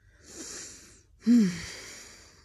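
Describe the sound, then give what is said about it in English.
A deep breath in and then out: two soft, breathy rushes separated by a short pause, the second opening with a brief low voiced sound. “Take a deep breath. Breathe in and out.”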